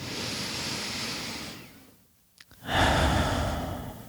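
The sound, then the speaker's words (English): A person taking a deep breath: a long, airy breath, then a short pause of near silence with a small click, followed by a loud, drawn-out sighing exhale. “Let me just take a moment to breathe right now.”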